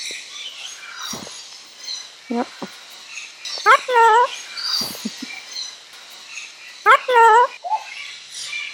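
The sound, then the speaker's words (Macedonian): A sulphur-crested cockatoo feeding at a rubbish bin gives two loud, harsh, raspy screeches amid softer squawks and scuffling, with a voice talking alongside. “Време е за вечера за еден кокату со жолта боја на главата, Sulfur Crested Cockatoo. Обично, набавката на храна представува предизвик кога се наоѓа во затворена канта за ѓубре,”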